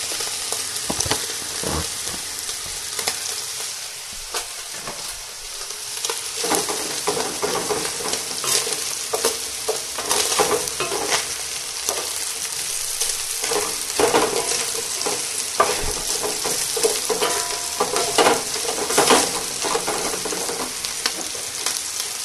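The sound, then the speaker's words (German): Onions sizzle in a hot pan while being stirred, a continuous crackling fry with scattered scrapes and knocks of the utensil against the pan, holding steady and fairly loud with no talking. “mit meinem schönen großen Breter auf eine Seite und auf die andere schütte ich jetzt schon mal die Zwiebeln.”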